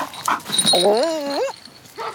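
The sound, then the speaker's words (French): A dog whines and whimpers in a London park: brief yelps, then a drawn-out, wavering whine whose pitch dips and then climbs at the end, with a shorter faint whimper after a pause. “C'est un parc où les habitants de Londres aiment venir s'y prélasser, faire leur jogging ou promener leurs chiens.”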